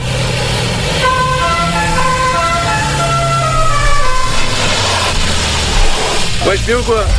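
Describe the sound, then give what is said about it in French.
A Peugeot 205 GTI speeds down the street with music blaring. A melodic tune plays loudly over a low, steady engine drone, and a voice cuts in briefly near the end. “il y a le kéké qui a une 205 GTI qui part du coin de la rue, qui va passer à toute vitesse pour aller jusqu'au bout avec la musique à fond”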